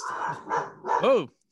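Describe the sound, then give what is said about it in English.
Kyle's dog barks excitedly, a few sharp barks and yips with one rising and falling in pitch, mixed in with a voice. “Kyle's dog is going crazy.”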